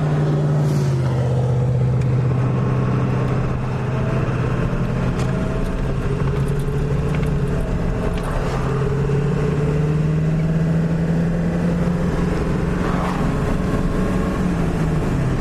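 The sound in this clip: A car driving, heard from inside with the window open: a loud, steady engine and road drone whose low pitch dips early, then slowly rises again, with no talk.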